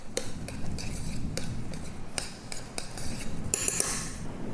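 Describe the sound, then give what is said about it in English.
A spoon stirs food in a cooking pot, making many quick metallic clinks and scrapes against the pot in an irregular rhythm. The clatter is clear and moderately loud, with no one speaking. “Okay, then I'm just gonna give it a quick stir.”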